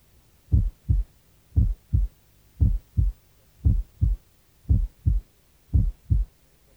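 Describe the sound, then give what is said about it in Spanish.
Normal heart sounds at the left lower sternal border: six evenly spaced lub-dub pairs of dull, low thumps, each single first sound louder than the single second sound, over a quiet background. “Revise ahora el primer y segundo ruidos cardíacos normales para los puntos especificados. Borde external lateral izquierdo. Primer ruido único. Segundo ruido único. El primero es más fuerte que el segundo.”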